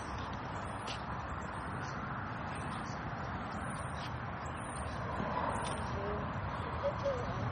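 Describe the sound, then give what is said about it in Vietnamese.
Birds chirping outdoors along a walk, giving faint, high, short chirps that repeat many times over a quiet, steady background hiss. “Đi bộ thấy không? Chim nó kêu.”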